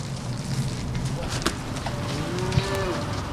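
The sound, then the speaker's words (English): Cattle mooing as stray heifers are rounded up on a dairy farm near Waukon, Iowa: a drawn-out, wavering moo rises over steady, noisy outdoor background. “Tom Wehner rounds up a couple of stray heifers at his dairy farm near Waukon, Iowa”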